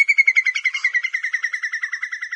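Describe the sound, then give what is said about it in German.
Whimbrels in Iceland give a rapid, rippling trill of many evenly spaced, high notes. The call keeps up a steady pulse and level for its whole length, alone and with no background. “Falls wir es richtig herausbekommen haben, so sind die fröhlichen Gesellen Regenbrachvögel.”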